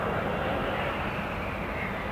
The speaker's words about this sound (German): heute das sogenannte Touch and Go, bei dem er den Jet kurz landet und sofort wieder durchstartet.